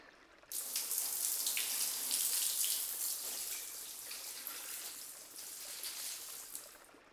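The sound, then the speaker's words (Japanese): Running water rinses treatment out of someone's hair. It begins abruptly after about half a second, then flows as a steady, hissy, fairly quiet stream to the end, with slight swells in intensity and no voices. “もうそろそろトリートメントを流そっかね。そうしよう。はい、じゃあそういうことで流します。”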